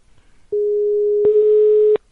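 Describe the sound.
Telephone line tone as a call is placed: one steady mid-pitched tone of about a second and a half, with clicks at its start and end.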